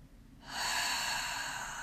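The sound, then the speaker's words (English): Deep breath let out by a group during a guided breathing exercise: a brief quiet moment, then one long, breathy exhale swells up and holds steady to the end. “let's take 3 deep breaths together. Let the air that you're holding go.”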